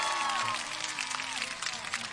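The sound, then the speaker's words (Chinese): An audience at a parenting talk event applauds to welcome a guest. The clapping is faint and continuous, with a voice speaking over it. “我们再一次掌声响起来。”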